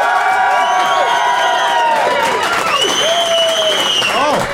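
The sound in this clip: Audience applause at a live debate vote, loud clapping mixed with cheering and several high, sliding whoops, staying intense throughout.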